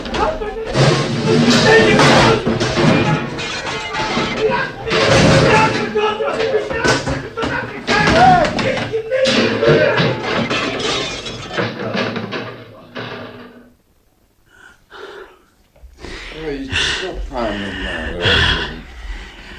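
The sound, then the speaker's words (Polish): Furniture is smashed as a man wrecks a carefully restored room, heard as loud, dense crashes and thuds with gasping breaths for about thirteen seconds, then a brief lull before a few more knocks. “Zdemolował pan salę odtworzoną z takim pietyzmem.”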